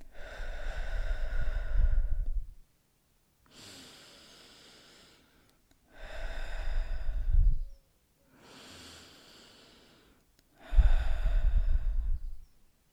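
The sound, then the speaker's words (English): Three slow, deep breaths, in through the nose and out through the mouth: louder, airy breathy passages alternate with softer, quieter breaths, evenly spaced with short silent gaps. “I just want you to take 3 deep breaths in. So in through the nose and out through the mouth.”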